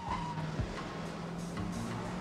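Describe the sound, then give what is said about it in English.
Engine drone of a black-and-white police squad car turning into a road, a steady low hum under broad road noise that stays fairly even through the short clip. “A moment later, another squad car turns into the road and follows after the first.”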